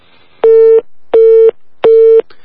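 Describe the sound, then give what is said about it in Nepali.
Busy tone after a phone call to a radio guest drops: three loud, steady electronic beeps of even pitch and spacing, with a fourth just starting as it ends. “यतिखेर हामी सम्झना खत्रीसँग कुराकानी गर्दै थियौं, उहाँको सँग सम्पर्क विच्छेद भएको छ”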